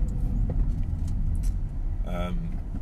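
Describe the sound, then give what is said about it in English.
Road traffic heard from inside a car stuck in heavy traffic: a steady low engine and road rumble throughout, with a brief higher tonal sound near the end. “oh wow, I've just come up to a whole bunch of traffic. Oh, a whole crazy bunch of traffic right now.”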